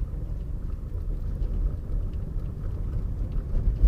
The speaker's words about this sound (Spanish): Me encuentro manejando grabando este audio.